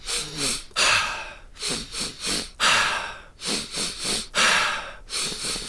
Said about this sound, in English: So, by the time you get to your third breath, you want to feel like you're pretty full. So, you're taking like really nice big breaths in.